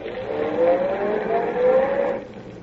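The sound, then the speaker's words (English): A car drives off with a steady engine hum that swells and dips slightly as it moves, then drops away and thins out near the end. “Where to, monsieur? I don't know yet. Just start driving.”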